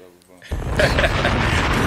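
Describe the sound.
Bomb explosion sound effect: after a quiet half second a sudden loud, noisy blast erupts and roars on steadily to the end.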